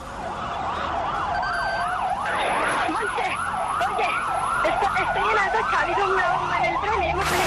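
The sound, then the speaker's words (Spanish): Wailing emergency sirens after the March 2004 terrorist bombing in Spain: several overlapping tones sweep rapidly up and down in repeating cycles over a steady rumble of road traffic. “Estos son los sonidos de aquel atentado que todos recordamos bien, que nos pone los pelos de punta”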